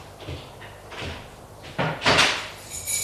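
A bedroom door is closed and locked with a key, heard as a few short wooden knocks and clatters that grow louder toward the end.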